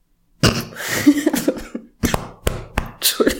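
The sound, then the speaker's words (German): Harsh coughing fit after choking on a drink: many loud, sharp coughs in uneven bursts with throaty rasping between them, heard alone without talk. “Entschuldigung. Ich habe mich gerade verschluckt. Ich wollte was trinken.”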